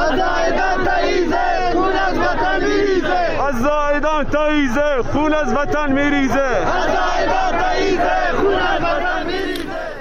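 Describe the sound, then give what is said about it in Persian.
Street protesters in Zahedan, Iran chant slogans at a weekly Friday protest against executions. A loud, dense crowd shouts in unison with a steady, rhythmic cadence that holds for the whole stretch. “این هم صدای مردم زاهدان بود در جمعه دیگه بعد از جمعه خونین زاهدان 8 مهر، که هر جمعه مردم به خیابون میان.”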